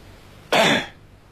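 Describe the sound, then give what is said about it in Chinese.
A storyteller's voice imitates a light cough: one short, soft throat-clearing burst that stands alone against a quiet background. “他轻轻咳嗽这么一声”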